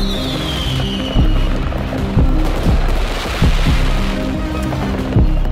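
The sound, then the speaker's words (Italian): Maradona bombs, powerful firecrackers, explode in a series of sharp, heavy booms over a continuous roaring wash of noise. “Dietro adesso qui sentite le bombe di Maradona che scoppiano.”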